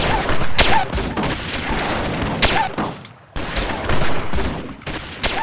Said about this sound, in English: fired a bullet into it.